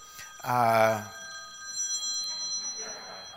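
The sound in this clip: A phone rings in one short, bright, trilling burst during a church sermon. Quieter talk follows after the ring ends.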